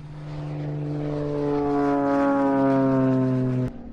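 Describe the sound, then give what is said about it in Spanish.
A small gasoline-powered airplane takes off, its propeller engine droning in a low, buzzing tone rich in harmonics that swells steadily louder before cutting off abruptly near the end. “Este es el sonido de un pequeño avión a gasolina despegando.”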